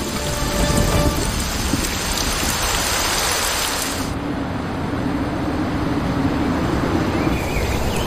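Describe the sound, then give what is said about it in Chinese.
Heavy rain lashes red-soil forest land in a storm. It pours as a loud, dense, continuous hiss, and the texture of the downpour shifts slightly partway through. “岩层风化，红壤遍地，风暴持续捶打着陆地，也滋养了密林中的生命。”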